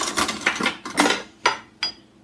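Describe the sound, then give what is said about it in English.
Spoon scooping out food from the edge of the skin: several short scraping and clinking strokes at an uneven rhythm, louder in the middle and sparser toward the end, with no talk. “So an easy, simple way is to grab a spoon.”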